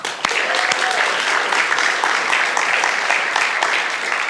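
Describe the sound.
An audience applauds with dense, steady clapping that holds at a lively level throughout, with a faint whooping cheer rising briefly above it near the start.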